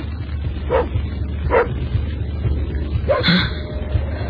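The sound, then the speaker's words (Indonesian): A black dog barks outside a house, giving a few sharp, separate barks spread across the moment, with a quick double bark near the end over a low background hum. “seekor anjing hitam sedang menyalak di luar rumahku.”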